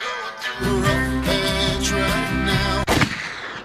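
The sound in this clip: A single gunshot sound effect cracks out abruptly, cutting off several seconds of steady, rhythmic music and leaving a brief noisy tail.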